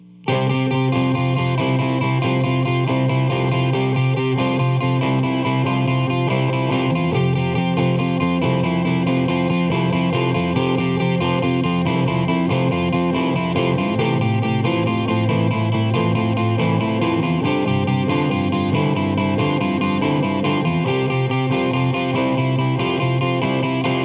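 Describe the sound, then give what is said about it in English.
A repeated pedal-point figure is played over chord changes in the key of C. The sound is a steady, sustained and bright-edged tone at even loudness, with the harmony below shifting a few times. “And the repeated figuration is going to sound like this. And it will be played over some chord changes in the key of C.”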